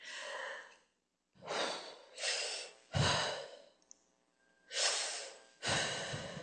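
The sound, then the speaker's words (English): A voice imitates a child's patterned breathing in bed at bedtime: six loud, airy breaths in an uneven rhythm with short pauses between them. “do you know that I'm breathing in a pattern?”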